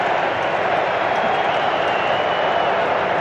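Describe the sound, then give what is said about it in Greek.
A football stadium crowd roars as Ecuador prepares a corner kick against Germany, a dense, continuous wash of noise holding at an even loudness throughout. “Ξεσηκώνεται το κοινό.”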